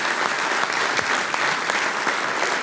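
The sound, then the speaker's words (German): Audience applause for folk music and singing groups on stage at a live event, a dense, steady clapping that holds level throughout with no talk over it. “Und jetzt darf ich Sie alle um einen großen Applaus bitten für unsere Mitwirkenden da auf der Bühne.”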